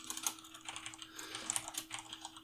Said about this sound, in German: Ich schreibe mir das hier gleich mal auf.